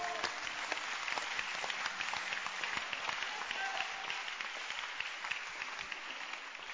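An audience claps during a church service: many sharp, overlapping hand claps keep up a steady, busy patter throughout, fairly faint overall, with no talk.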